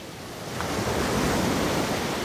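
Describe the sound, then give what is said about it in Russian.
Fresh wind filling a boat's sails over sea waves: a steady, hissing rush of wind and surf that swells after the first moment and then holds as a broad, continuous roar. “И сейчас же задул свежий ветер, наполнил паруса и погнал лодку вперед.”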